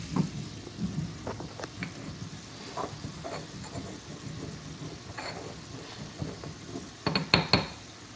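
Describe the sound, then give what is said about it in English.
Fennel sausage being stirred in a pan: a utensil scrapes and clinks against the pan over a faint sizzle, with a cluster of louder clinks near the end. “I don't know if the fennel was a great idea, but better stir my sausage.”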